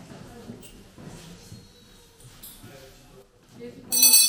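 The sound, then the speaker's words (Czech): A small hand bell rings at the close of a school lesson, a bright, loud burst of jingling right at the end, after a stretch of people talking quietly. “Zazvonil zvonec a vyučování je konec.”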